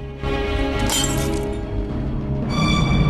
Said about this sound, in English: A glass of red wine on a table falls over and shatters.